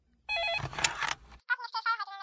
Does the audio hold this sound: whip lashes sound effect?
no